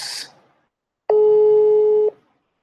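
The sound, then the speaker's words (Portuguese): Telephone call being placed: a short noisy burst, then a single steady ringing tone held for about a second before it cuts off into silence. “Mas vamos lá, já vamos ligar aqui nosso bruxo”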